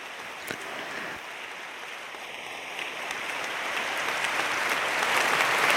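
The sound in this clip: Audience applause for two presenters before questions from the floor: a dense, even patter of many hands clapping that swells steadily louder toward the end.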